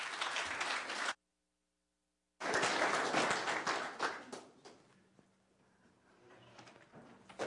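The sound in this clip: Audience applause welcoming a speaker at a Canadian Conference: a burst of clapping, a sudden silent gap, then a fuller round that fades away to quiet.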